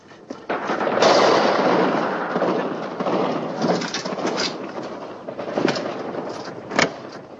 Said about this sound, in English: He keeps a, what appears to be a 50 caliber machine gun in a golf bag